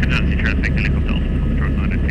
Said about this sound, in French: fait coulisser la porte de l'hélicoptère pour actionner le haut-parleur